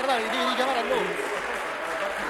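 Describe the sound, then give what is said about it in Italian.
Applause fills a parliament chamber as a steady patter of clapping under a voice speaking over it. The clapping thins slightly toward the end. “se applaudite non si riesce a dare la parola alla deputata Bonguerrieri”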